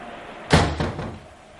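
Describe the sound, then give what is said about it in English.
A door shut quickly, making a loud thump followed a moment later by a softer second knock, over low background noise. “Now that candles are blown over and we're left darkling, shut the door, Thomas, quick.”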